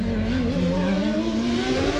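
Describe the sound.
Formula One race cars roar at the Australian Grand Prix on Adelaide's suburban street circuit, a loud, continuous high engine whine whose pitch climbs slowly and steadily throughout, with no voices.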